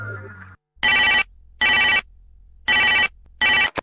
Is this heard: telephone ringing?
yes